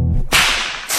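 A whip cracks, the tip breaking the sound barrier in a sonic boom: two sharp, loud, explosive snaps less than a second apart, with a brief hiss after the first.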